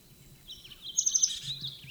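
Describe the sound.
A bird gives a 'chulep' call in the distance, a faint burst of about four quick, high chirping notes over a quiet background.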